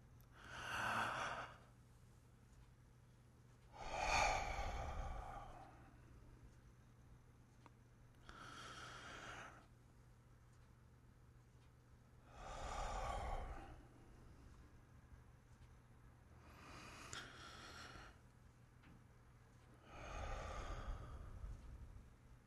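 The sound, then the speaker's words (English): Slow deep breaths during a guided relaxation exercise: six quiet, airy rushes of breath, evenly spaced across about twenty seconds with hushed pauses between them. “let's take a few deep breaths together.”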